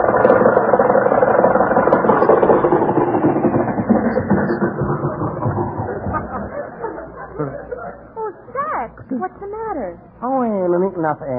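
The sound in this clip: A car engine runs out of gas, its rough, sputtering drone fading and dying away over several seconds. Voices then talk in the quiet that follows.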